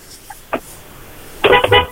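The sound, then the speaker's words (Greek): A car horn honks in a couple of short, loud blasts near the end, following a quiet stretch with only faint background noise. “Έλα, εδώ είμαστε, μη κορνάρεις, βγήκαμε. Μη κορνίρεις, ρε.”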